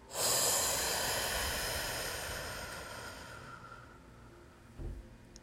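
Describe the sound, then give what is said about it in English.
A slow, deep breath: a loud, airy rush that starts strongly and then fades over several seconds, with a short soft puff of air near the end and no voices. “Begin to breathe in. Hold it. And exhale out.”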